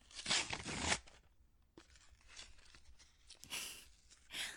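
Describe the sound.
Tearing open the paper wrapping on a gift box: a few bursts of ripping and crinkling, the longest and loudest first, then shorter tears, all fairly quiet.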